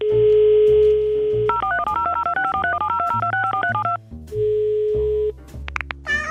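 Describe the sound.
Dialing a telephone number: a steady dial tone gives way to a quick series of many touch-tone beeps, then the dial tone returns briefly before more tones follow.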